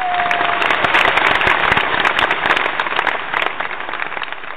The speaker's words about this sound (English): Just let's just give it up for Bill Cosby. He got off.